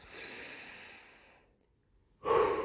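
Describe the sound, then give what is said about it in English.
A person takes a deep breath: a long, soft, airy inhale fades into a short pause, then a louder, forceful exhale. No talking. “I just realized I haven't really taken a breath in 10 minutes, so let me just do that.”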